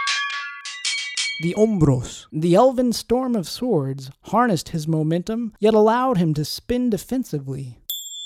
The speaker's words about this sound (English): A brief side note about the sound you just heard, the ring of a Mysterian school bell.